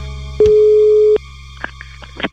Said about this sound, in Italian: Deve essere caduta la linea. Lo richiamo subito.